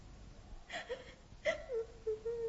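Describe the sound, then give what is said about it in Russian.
A young girl, a princess, cries in several wavering, high-pitched whimpering sobs that rise and fall, each catching in short bursts, with no other voices. “Что такое? О чем вы плачете”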